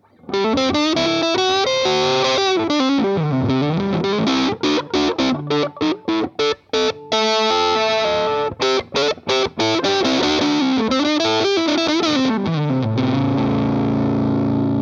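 Distorted electric guitar riff played on the neck pickup through a Dogstortion 2 distortion pedal. The riff is loud, thick and continuous, with shifting low notes and a burst of choppy staccato stabs midway; no voices.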